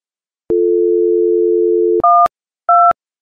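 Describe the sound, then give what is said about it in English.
Telephone dialing: a steady low dial tone runs for about a second and a half. Two short, loud, higher dual-tone keypad beeps follow, separated by a brief gap, with no talk. “Very long. Still dialing. Please bear with me, okay?”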